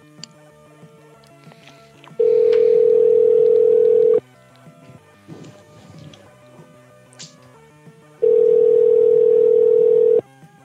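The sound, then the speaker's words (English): A telephone dial tone sounds as two loud, steady, unbroken tones of about two seconds each. Several seconds of quieter clicks and handling noises separate them. “Is it me, or does that like ringtone make you tired? What, the dial tone?”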